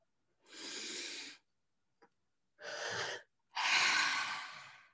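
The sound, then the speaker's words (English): People breathe slowly and audibly together before a conversation: three long, airy breaths separated by pauses, the last one the loudest and longest, with no talking. “Actually, can we take a breath together?”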